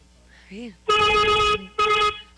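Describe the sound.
A vehicle horn gives two loud, sustained honks with a brassy, buzzing tone, the first longer than the second. A short vocal sound comes just before them.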